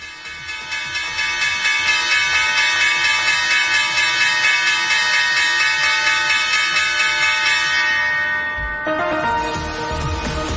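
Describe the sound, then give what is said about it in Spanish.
The opening bell rings at the New York Stock Exchange: a loud, continuous, bright ring with a fast ripple that holds for about nine seconds, then shifts in tone near the end. “Suena la campana de apertura en la Bolsa de Nueva York.”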